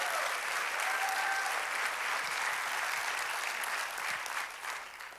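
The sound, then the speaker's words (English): Sustained audience applause welcomes a judge's wife and son at a ceremony honoring officers, a dense, steady clatter of many hands that holds loud throughout and eases off slightly at the very end. “Can we give them a hand and make them feel welcome?”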